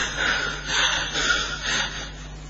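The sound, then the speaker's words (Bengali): A voice imitates the heavy panting of someone out of breath after running, four rhythmic, breathy huffs in quick succession, fairly loud and with no words. “পেছন পেছন দৌড়ে দৌড়ে দৌড়ে দৌড়ে দৌড়ে দৌড়ে এসে হাঁপাচ্ছে।”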